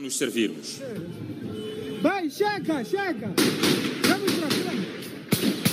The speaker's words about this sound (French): Dans le centre-ville, très vite, des tirs retentissent.